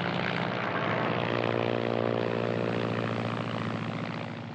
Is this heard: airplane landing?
yes